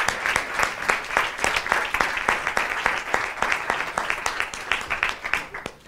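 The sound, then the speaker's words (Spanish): An audience claps in steady, continuous applause, many hands producing a dense, even patter that holds at a moderate level throughout with no talk over it. “Un aplauso para ellos.”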